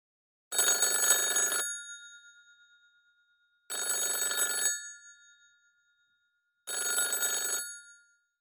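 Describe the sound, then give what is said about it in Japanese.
A telephone bell rings three times, each bright, metallic ring lasting about a second and then fading, with short silent gaps between the rings. “何ですか？ 電話です。”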